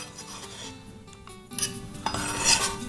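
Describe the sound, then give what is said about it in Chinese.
A knife cuts cucumber on a cutting board amid kitchen clatter: soft scraping and knocks, with a few sharper clinks near the end, moderately loud and without talk. “好，来切个小黄瓜，这个到时候是清爽，摆清爽的。”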